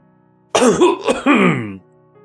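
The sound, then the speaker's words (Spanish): A single voiced cough, performed by a narrator as a character clears his throat, rough and loud for just over a second, with short pitched bursts and no surrounding sound. “Tosió.”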